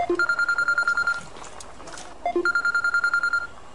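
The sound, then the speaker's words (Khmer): A mobile phone rings in two bursts of rapid, pulsing electronic beeps, each burst separated by a brief pause. “អូទូរស័ព្ទម៉ែ”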